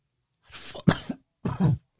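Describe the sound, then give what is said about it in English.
A person coughing with COVID: three dry, harsh bursts in quick succession with a short pause before the last, fairly loud against silence. “Sorry about that COVID cough.”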